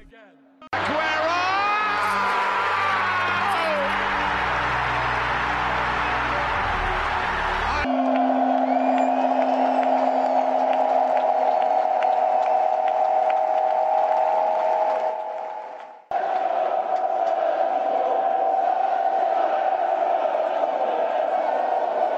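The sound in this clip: Manchester City football fans chant Sergio Agüero's name, a loud, sustained crowd roar of massed voices that carries on throughout with one brief dip in volume.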